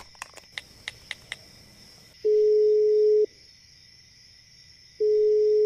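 Outgoing-call ringback tone on a telephone: a few short clicks, then two long, steady, low tones separated by a silent gap, each burst loud and even.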